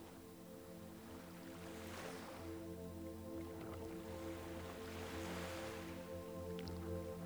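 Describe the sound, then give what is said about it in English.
Soft ocean waves surge along a cliffy shoreline as a boat is paddled, with a couple of gentle swells rising and fading over a steady low hum, all faint and calm. “You've been paddling along, hugging the cliffy shoreline for several hours now.”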